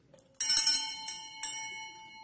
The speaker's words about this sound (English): When I ring the bell at Bell Road, it's time to come into the classroom.